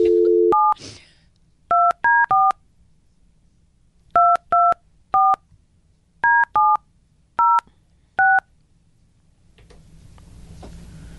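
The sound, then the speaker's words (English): A phone number is dialled on a keypad: a short dial tone, then eleven crisp beeping key tones in uneven bursts and pauses, followed by faint hiss. “Can you dial her number, please?”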